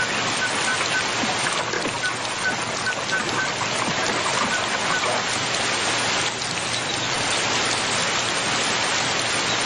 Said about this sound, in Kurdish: بارانەکە هەروە دەبارێت.